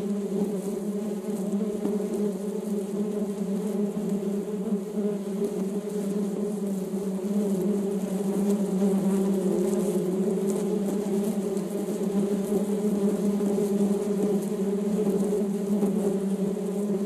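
Bees buzzing in a steady, murmuring hum, a dense, even drone with a low, rich tone that holds without a break and with no voices.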